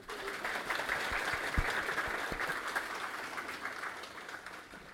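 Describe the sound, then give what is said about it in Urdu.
Light applause from an audience at an Urdu religious talk: a soft, steady patter of many hands that holds an even level from start to end, with no voices over it. “تھوڑی سی ہلکی تالیاں بجائے”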